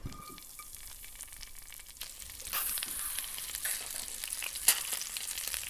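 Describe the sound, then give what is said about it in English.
Frozen mealworms fry in a little oil with salt in a flat pan, giving a steady crackling sizzle that grows louder midway, with one sharp pop near the end. “Okay, they're curling in the pan as they fry. No idea how long to fry them for. Oh, they're popping.”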